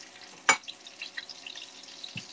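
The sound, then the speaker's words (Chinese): Garlic cloves drop into hot oil and sizzle, opening with one sharp hissing burst, then faint scattered crackles, quiet and without talk. “滋滋滋的声音，是油在滋滋滋的声音。”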